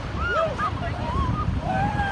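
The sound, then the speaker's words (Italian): Shouts of Polar Bear Club swimmers running into the icy Atlantic at Brighton Beach on January 1: several overlapping cries and whoops rise over steady rushing surf and wind. “Queste sono le grida dei nuotatori del Club degli Orsi Polari, che il 1 gennaio si lanciano di corsa e si tuffano nell'acqua gelata e scura dell'Oceano Atlantico”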